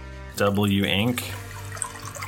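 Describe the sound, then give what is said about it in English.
Wine pours into a glass, a gurgling liquid stream whose tone rises for under a second before settling into a quieter, steady trickle. “That is the sound of some delicious wink wine being poured.”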